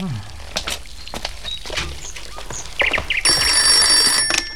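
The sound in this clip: A telephone rings: a bright, high, sustained electronic ring arrives near the end, after a run of clicks, knocks and movement noises.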